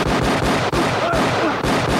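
Video game gunfire empties a magazine in a dense, loud stream of rapid shots with a couple of brief gaps between bursts.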